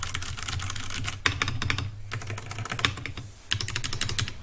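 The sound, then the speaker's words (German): Rapid typing on a computer keyboard, a dense stream of crisp clicks in several bursts with short pauses between them, with no voices. “Und jetzt tippe ich noch mal so ein bisschen rum.”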